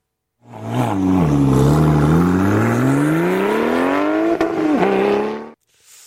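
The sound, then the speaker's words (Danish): A Porsche sports car engine revs in one long, loud pull that climbs steadily in pitch. It then dips and gives a quick blip before cutting off abruptly. “jeg vil sige Porsche. Det er en Porsche. Ja. Det er rigtigt.”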